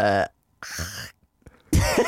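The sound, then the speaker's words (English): Rough hacking coughs and throat-clearing, as if bringing up phlegm, come in three loud, ragged bursts separated by short silences and strongly voiced throughout. “Phlegm? You made a bit of phlegm?”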